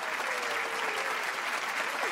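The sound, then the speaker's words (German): Children clapping in steady, dense applause that runs without a break from start to end, a busy wash of many hands at an even loudness. “die eben einfach klatschen, wenn sie was gut finden. Logisch, die Kinder. Applaus. Der ist von euch. Und hier ist noch ein bisschen mehr für euch.”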